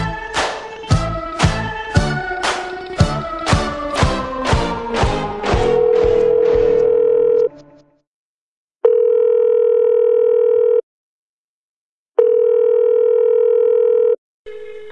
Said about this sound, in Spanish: Estamos llamando a ver... A ver si contactamos ya con la siguiente víctima.